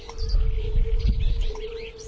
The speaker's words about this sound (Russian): Это жаворонки поют.